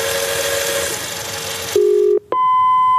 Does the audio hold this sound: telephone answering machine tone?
yes